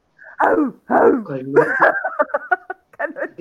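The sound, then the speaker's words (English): A person imitates a dog's bark with their voice: a few drawn-out, throaty woofs and a whining yelp, followed by a quick run of short, sharp yips. “do an imitation of your dog's bark”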